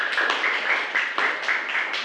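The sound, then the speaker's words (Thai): Students in a classroom clap their hands in thanks to the provider of an educational video, a quick, evenly spaced run of many sharp claps. “ปรบมือขอบคุณกับสื่อเจ้าของที่”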